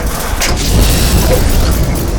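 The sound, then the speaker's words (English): A mounted turret weapon fires at a dummy target in a video game, making a loud, dense, continuous roar with no separate shots standing out. “So let's load this up and let's start firing at the dummy target.”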